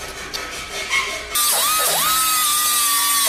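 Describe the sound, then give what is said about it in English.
Power tool grinding a welded steel tank filler panel: a loud, steady, high whine starts abruptly after a quieter opening, its pitch dipping twice as the tool bites into the metal before it levels off. “So I had to keep on making minor adjustments and grind it down until it fit perfectly.”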